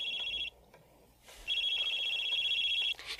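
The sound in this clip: A telephone rings with a high, trilling electronic tone in two bursts, a short ring and then a longer one after a pause, fairly faint over light background hiss.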